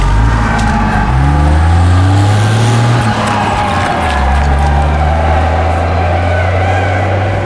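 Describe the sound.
A car drives off with a loud, steady engine drone whose pitch shifts in steps as it pulls away.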